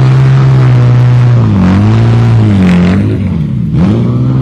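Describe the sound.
Porsche rally car engine running loud and continuous, a deep harmonic drone whose pitch rises and dips through a few revs, with a rough rattle over it and no voices.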